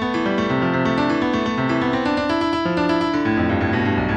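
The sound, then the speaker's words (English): Synthesized musical notes sonify weekly US coal production data, one note per week played in quick succession, pitch rising and falling with output; a dense, rapid, continuous stream of wandering tones. “let's take coal production data from the Energy Information Administration and play a single musical note for each week. The higher the pitch of that note, the higher the coal production.”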